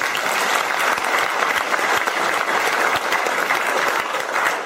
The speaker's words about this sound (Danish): Velkommen igjen. Applaus.